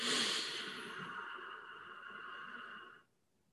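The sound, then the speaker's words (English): A long, deep breath during a guided breathing exercise, heard as a steady, airy hiss. It is strongest at the start, holds for about three seconds, then stops abruptly. “Now one more very deep breath.”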